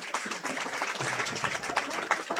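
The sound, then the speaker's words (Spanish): A church audience applauds at a saint's feast-day celebration, with many hands clapping in a dense, continuous patter at moderate loudness for a couple of seconds. “un aplauso para nuestro San Antonio de Padua”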